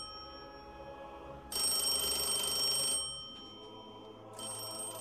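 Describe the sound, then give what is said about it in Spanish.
Telephone ringing in two bright, trilling bursts, the second cut short, sounding fairly faint over a low background hum. “Trotsky recibe una llamada trágica”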